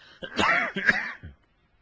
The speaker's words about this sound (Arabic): معلش أنا يعني جو القاهرة يبدو فيه أتربة وكذا، ف يعني أستميعكم عذرا في كثرة السعال.